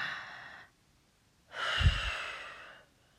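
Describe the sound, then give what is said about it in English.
Two slow, guided breaths. A soft airy exhale trails off, a pause of near silence follows, then a longer and louder breath swells and slowly fades. “Breathe in. And out. That's it, you got it, babe. Just follow me.”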